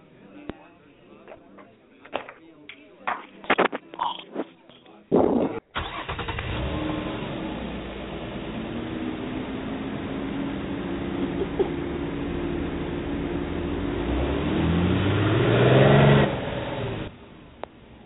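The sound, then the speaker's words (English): A nine-passenger van is heard with a few clunks and knocks before its engine starts, then a steady running engine note that swells louder as it drives off before cutting out near the end. “Seven former Eastern employees board the nine-passenger van and start the trip up to El Yankee Rainforest.”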